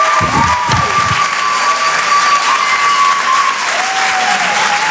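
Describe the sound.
A crowd applauds and cheers for a comedian, brief shouts standing out near the start before the clapping settles into an even, loud wash that carries on to the end.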